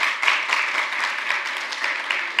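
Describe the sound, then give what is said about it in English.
Audience applause for a church worship team fills a short stretch, a dense, even wash of many hands clapping at steady loudness from start to finish. “Can we just give Brandon and the worship team a round of applause, guys?”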